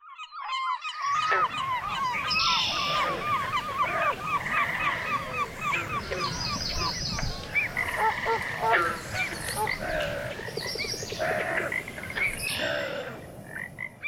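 A lively wetland soundscape of geese honking over a constant chorus of croaking frogs. Many overlapping calls sound at varied pitches and keep up a busy, steady loudness throughout.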